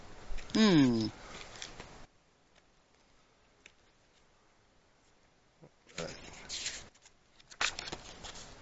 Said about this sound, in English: Well, I am always happy to pull a card for Dr. Edward.